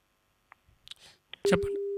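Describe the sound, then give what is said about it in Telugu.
A telephone busy tone sounds after a call is disconnected: a few faint clicks and handling rustles, then a steady, fairly loud, mid-low tone that starts about three-quarters of the way in and holds to the end. “Call cut అయిపోయింది sir.”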